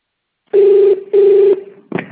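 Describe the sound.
Phone keypad presses sound as two steady DTMF tones, each about half a second long, then a short third blip. The tones come through loud and clear with no talk.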